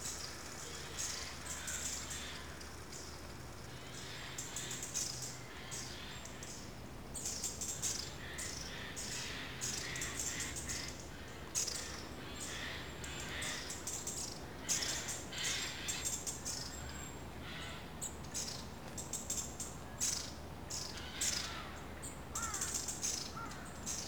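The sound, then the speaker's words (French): Forest ambience, with many bird calls and insect chirps layered over one another in a dense, continuous wash that holds steady throughout. “La forêt a toujours inspiré l'imagination. Il n'y a qu'à l'écouter. Petit panoramique.”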